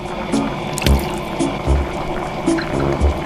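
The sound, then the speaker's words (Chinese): Water pours into a cooking pot holding rice-field fish, making a steady, moderately loud liquid splashing with a few soft knocks. “加水，也倒上我们的稻花鱼。”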